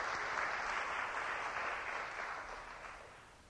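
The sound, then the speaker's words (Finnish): A church audience applauding during a service, a soft, dense patter of many hands that starts full and gradually fades toward the end. “Let's give Jesus a hand. Taputetaan Jeesukselle.”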